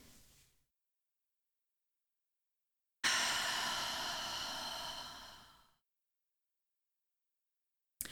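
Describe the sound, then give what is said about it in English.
A long, deep breath breaks a stretch of silence, taken together as a calming exercise during a talk on grief practices. The airy, steady rush holds for a couple of seconds, then fades out. “So let's take a deep breath together.”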